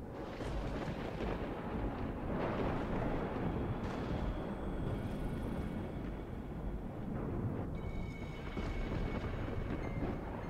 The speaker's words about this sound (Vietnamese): Đúng lúc đánh đùng một cái, tiếng sét đánh đinh tai nhức óc.